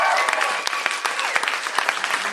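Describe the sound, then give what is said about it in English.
Steady applause from a live audience greets a guest walking out on a show, dense and loud clapping that holds evenly across the whole stretch with no voices rising above it. “Ladies and gentlemen, please put your hands together for the one and only Aisha Tyler.”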